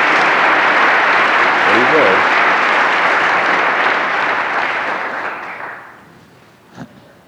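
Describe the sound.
Loud, dense audience applause welcomes Rabbi Kushner to an event hosted in part by Westminster Church in Minneapolis, holding steady for several seconds before fading away and leaving near quiet.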